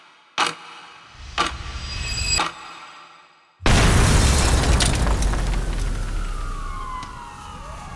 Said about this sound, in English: In an instant, the blast reduces the eastern wall of the Radio Free Europe building to rubble. 20 kilograms of plastic explosive unleash a shockwave that shatters windows